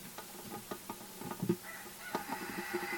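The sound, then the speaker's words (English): Roosters crow at daybreak: faint, drawn-out harmonic calls with a few soft clucks and scattered clicks around them. “Boy, if you can hear the roosters crowing over Zoom.”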